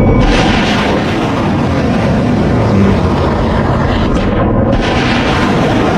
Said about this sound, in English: There are a couple of beautiful Tomahawk launches over in the Strait of Hormuz this evening.